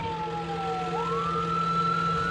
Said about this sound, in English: Dr. Holland and Janine race with her by ambulance to the ER